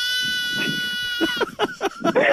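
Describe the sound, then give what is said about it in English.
A baby lamb bleating in short, quavering cries: one faint early bleat, then a few quick bleats close together, over a steady high hum. “What do you think it is? That's a baby lamb. 100%. As much as my pop says that it's not. Yeah, no, it is. It is a baby lamb.”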